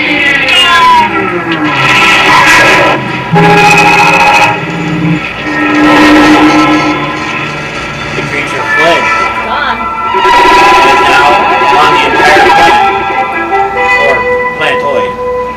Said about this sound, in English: Activate warp drive. Activated, Captain.